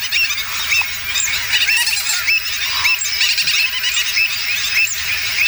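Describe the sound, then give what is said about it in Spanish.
Noisy waterbird colony of terns, stilts, avocets and flamingos calling: a dense, continuous chorus of overlapping shrill cries, chattering calls and honks with no pauses. “podemos escuchar ese trabalenguas formado por pagaza, pico negra, charrán, patí negro común, gaveta ridora, boceta, cigüeñola, flamenco, de todo.”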